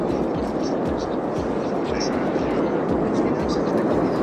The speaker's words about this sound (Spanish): Dicen los vecinos de La Palma que el ruido que mejor describe la erupción del volcán se parece al motor de un avión que sigue en marcha.